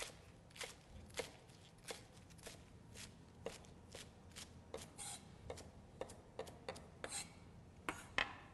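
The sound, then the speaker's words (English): A knife chops stemmed kale for a sausage and white bean soup, making many quick, crisp, faint cuts in an uneven rhythm, with soft rustling between strikes. “So kale, very easy. Once we've stemmed it, we're going to give it a simple chop.”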